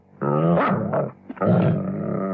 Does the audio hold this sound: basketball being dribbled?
no